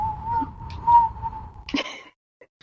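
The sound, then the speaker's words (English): A person whistles to imitate wind noise, holding a steady mid-pitched tone for under two seconds with a slight swell, followed by a few short breathy puffs. “Yeah, I'm not good at making wind noises, guys.”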